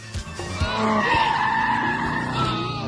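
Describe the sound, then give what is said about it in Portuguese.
A car drifts to change lanes on a road near Ibirapuera, its tires skidding in a loud, sustained screech that holds steady for over two seconds above rumbling road and engine noise. “O cara deu um drift pra mudar de pista.”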